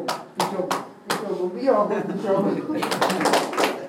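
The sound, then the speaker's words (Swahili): An audience at a Swahili goal-setting talk claps for a speaker. A few separate claps come early, then a denser run of clapping toward the end, all under a voice that keeps talking. “Mpigieni makofi Richard. Najua utakuwa umeweka. Mpigieni makofi Richard. Amepiga kofi zaidi”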